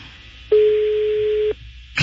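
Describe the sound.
A single steady telephone tone sounds for about a second as a call is placed, a clean, plain beep set against a faint background hiss.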